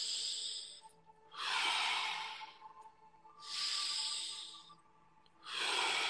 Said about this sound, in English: Inhale through the nose. Exhale out of the mouth.